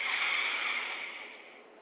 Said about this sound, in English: Inhale deeply.